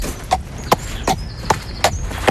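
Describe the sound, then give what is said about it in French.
Hooves of a horse clip-clop at a riding stable with six evenly spaced, crisp strikes in a steady walking rhythm over a faint background hiss, and no voices. “Vanessa Tessier-Aube, passionnée de chevaux qu'elle chouchoute avec talent aux écuries de la Perrière”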